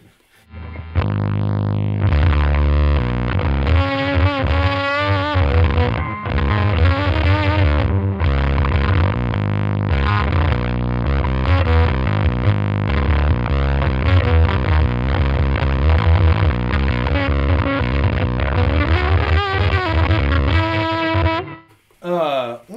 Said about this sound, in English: this was a sound that I thought was pretty interesting for a fuzz pedal or a drive or whatever it is.